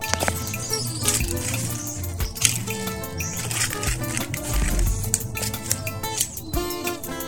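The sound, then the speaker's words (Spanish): Running water in the countryside, a continuous splashing flow with birds chirping and calling over it. “Este es mi agua. Así suena el campo.”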